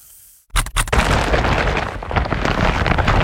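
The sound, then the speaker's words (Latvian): A shopping bag full of clearance-sale goods: a few sharp, loud bursts give way to a sustained, noisy crashing roar that stays loud to the end, with no voices. “Dzirdi? Tā skan IKEA iepirkuma maisa ar izpirkšanas precēm.”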